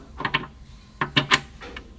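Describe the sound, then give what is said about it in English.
A metal bolt is slipped into a bolt hole, giving a few quiet metallic clinks and rattles in two short clusters, followed by a faint final tick. “So I'm going to slip the bolt into the hole to check it.”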